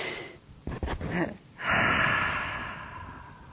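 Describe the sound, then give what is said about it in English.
Human breathing for a breathing exercise: a few short breathy bursts, then a deep, loud rush of breath that holds steady and slowly fades to the end. “did you take a nice big inhalation and kind of do that nice dumping exhalation like Geshe-la teaches?”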